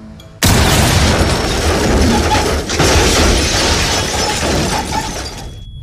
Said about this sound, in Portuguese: a explosão ela arrebenta a porta da base dos incursores. Os alarmes disparam